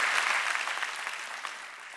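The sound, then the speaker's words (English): A church audience claps their hands in a dense, steady burst of many overlapping claps that eases off slightly toward the end. “Come on, clap your hands if you believe that.”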